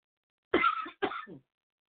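Someone with allergies clears their throat in two short, rough bursts close together. The sound is fairly faint and heard alone, with silence around it.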